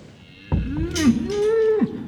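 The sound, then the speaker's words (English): Beef cattle from a farm herd of young bulls give a single long, low moo. It swells in loudness, holds, then drops sharply in pitch at the end. “Those beef cattle make up what the Trust is proud to call its million-dollar herd”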